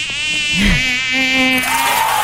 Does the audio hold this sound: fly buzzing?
yes